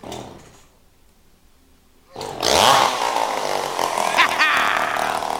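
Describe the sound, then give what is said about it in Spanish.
Chainsaw used as an instrument in a music track: after a quieter opening and a near-silent gap, a loud, steady, buzzing roar kicks in and runs to the end. “con una sierra eléctrica también se puede hacer música”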